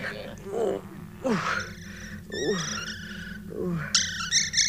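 High, warbling bird calls of a thrush, a radio drama effect, come in several short bursts, with a quicker trilling run near the end over low, murmuring sounds.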